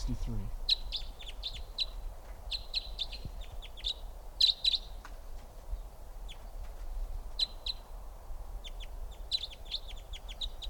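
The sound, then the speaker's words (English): Many quick, high chirps and tweets from birds flying around a net, in scattered bursts over a steady low rumble, with occasional soft thumps. “Birds are really flying around. I got two in the net here.”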